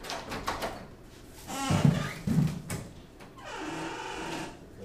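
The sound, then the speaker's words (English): A door being pushed shut, with rubbing and scraping and two dull low thumps near the middle, followed by a steady hiss. “I gotta close the door because I'm hearing a lot of yelling out there.”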